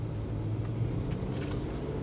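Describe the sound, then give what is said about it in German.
Low, steady engine rumble of a company car driving along a road, an even drone without sharp changes and no voices. “Mit seinem Rentner Firmenauto fährt der alte Sack von seinem Büro zu Bachenbülach in ein paar Minuten nach Bülach.”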